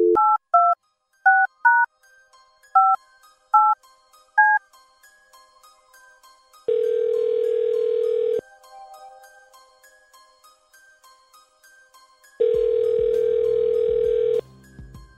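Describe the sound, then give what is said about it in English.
A telephone number is dialed on a touch-tone keypad, a rapid run of short beeps at varying pitches. Two long, loud ringing tones follow, separated by a quiet pause. “Stand by. Here we go. Dialing at random.”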